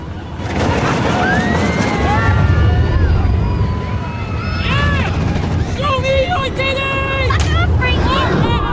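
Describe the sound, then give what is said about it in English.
Roller coaster thundering along its track toward a loop-the-loop, its frame creaking: a loud, continuous rumbling roar layered with high, wavering squeals and creaks that rise and fall throughout, thickening in the second half. “The frame creaks as the coaster thunders towards a loop-the-loop.”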